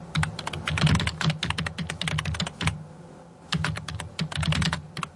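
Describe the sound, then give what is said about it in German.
Typing on computer keyboards in a Berlin office: rapid, irregular clicking of keys with a short lull partway through before the keystrokes pick up again. “So klingt's in vielen Berliner Büros längst nicht mehr.”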